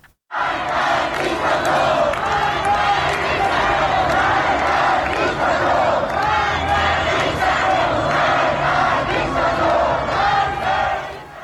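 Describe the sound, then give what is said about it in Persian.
A large crowd of protesters marches in Shahrak-e Azadi, Tehran, with chanting and shouting merging into a loud, sustained roar for about eleven seconds. “یه صدا، یک ویدیوی دیگر میتونیم بشنویم از شهرک آزادی تهران که اونجا هم جمعیت زیادی در حال حرکت دیده میشن در این ویدیو.”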